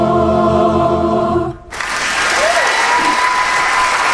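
Taped audience applause breaks in after a short passage of live choir singing, a dense, steady wash of clapping that holds at full volume to the end.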